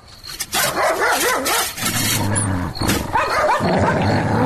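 A dog barks repeatedly and growls near a door, loud and continuous throughout, with many sharp barks running into rough growling.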